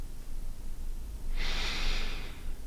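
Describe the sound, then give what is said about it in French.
A single slow, airy breath lasting about a second, soft and steady over a faint low hum. It comes from a calm relaxation breathing exercise: in through the nose, out through the mouth, as if gently blowing. “Inspirez avec le nez et expirez avec la bouche, comme si vous souffliez sur un voile que vous soulevez très légèrement.”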